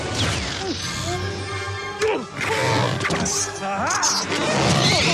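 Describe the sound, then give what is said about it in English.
Loud crashes, thuds and whooshes as a spacecraft shoots out of the Hero's Duty game and bounces around the station in an animated film, with several heavy impacts over a dense, busy background. “The craft shoots out of Hero's Duty and bounces around the station before entering another game.”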